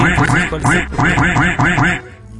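A duck quacking in a rapid series of many loud, nasal quacks, delivered in two quick runs with a brief pause between them.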